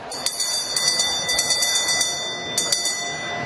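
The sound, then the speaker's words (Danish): The newly elected speaker of the Danish parliament rings the chair's hand bell: a rapid, bright series of high metallic strikes, a short gap, then a few more quick rings. “Henrik Frandsen, Folketingets nyvalgte formand, ringede med klokken.”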